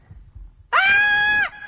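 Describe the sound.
A woman's loud, sustained high-pitched scream, a dramatic shriek from an audience member at a live event, holding steady for under a second before cutting off, with faint murmur before it.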